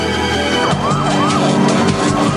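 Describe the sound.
Fire truck siren wailing as the truck pulls up on a street outside a building, its pitch sweeping up and down over a dense rumble of traffic and engine noise.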